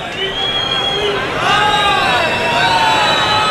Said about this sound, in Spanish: Y las protestas que escuchamos del público. Claro, el público está muy enfadado.